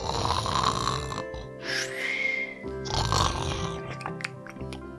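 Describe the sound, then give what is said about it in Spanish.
A wolf asleep in a bed after a big meal snores loudly, with a few long, rasping, guttural snores in a slow rhythm, followed by weaker snorting breaths at the end. “¡qué ronquidos tan fuertes los de la abuela!”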